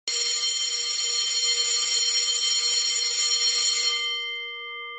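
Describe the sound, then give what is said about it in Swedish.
A school bell rings electrically in a loud, steady, unbroken clang for about four seconds, then fades out with a lingering hum. No voices are heard. “jag tror klockan kommer att ringa här alldeles strax, så håll nu lite för öronen, för nu blir det påminnelse om skoltiden.”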